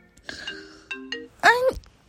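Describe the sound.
A phone ringtone for an incoming call plays a few short, bright electronic notes, and a brief voice follows.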